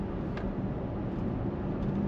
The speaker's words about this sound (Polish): Jedziemy sobie przez miasto, 50-teczką, cisza, spokój, bo cały czas korzystamy z silnika elektrycznego. Teraz pojawia nam się już 90-tka, wciskam gaz